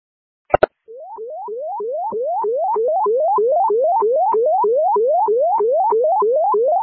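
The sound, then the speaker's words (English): Fire dispatch informational alert tone for a walk-in at Crystal Lake Fire Station 3: two sharp clicks, then a loud, steady run of many rapid rising electronic sweeps repeating in an even rhythm. “Can you punch a card and give me an informational tone for a walk-in at Station 3?”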